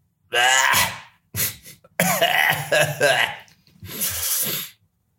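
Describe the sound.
A man coughing: rough throaty hacks and throat clearing in several bursts, with short pauses between the fits.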